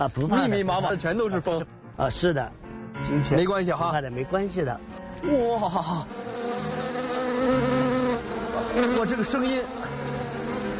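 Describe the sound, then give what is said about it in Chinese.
A swarm of bees buzzes inside a bee-rearing greenhouse, a steady, dense droning hum heard on its own in the later part after people talk over it early on. “哇，这个声音。 哦，是的，到处都是蜂。 这个声音还是感觉让我有点紧张。”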